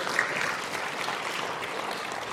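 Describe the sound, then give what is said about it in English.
Applause from a church audience during a sermon, a steady, dense patter of many hands clapping at moderate volume with no clear break. “Now, as they said, yes, clap, somebody clap, please.”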